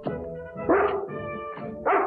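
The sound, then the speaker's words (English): A dog barking and yipping in a cartoon scene: a few whiny, voiced bursts with two louder barks standing out, alone with no speech. “That's one hungry dog”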